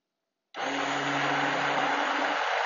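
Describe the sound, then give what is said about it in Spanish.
An electric mixer starts up abruptly in a bowl, beating a powder mixture, and runs as a loud, steady, even whir to the end with no talk. “Para que cuando empiece la batidora no se me vaya el polvo para arriba volando.”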